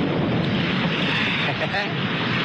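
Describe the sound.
A storm of strong wind and heavy rain at night with water all around, heard as a dense, unbroken roar of rushing noise that holds at a loud, steady level throughout.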